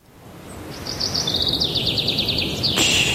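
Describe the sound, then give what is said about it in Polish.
Birds sing in a high, rapid run of chirping trill notes that rise out of a steady low background hiss, followed by a brief sharper burst near the end. “Spłoszysz ptaszki. Śpiewają w Muzeum Narodowym w Warszawie na wystawie Józef Chełmoński.”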